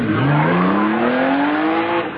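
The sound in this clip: Sound effect of a car speeding off, a loud engine note that climbs steadily in pitch for about two seconds, heard alone without voices.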